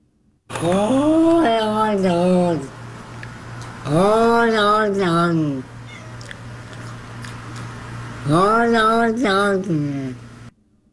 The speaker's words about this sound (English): That video is so old. It was recorded on a VHS. Okay. That's a cat.